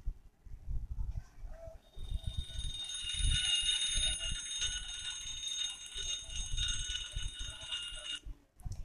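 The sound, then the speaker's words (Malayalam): An alarm clock rings with a steady, high-pitched, continuous trill. It starts after a brief pause, runs for several seconds over low background rumble, and cuts off abruptly near the end. “പതിവ് പോലെ alarm അടിക്കാൻ തുടങ്ങി”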